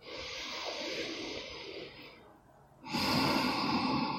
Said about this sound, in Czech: Nádech.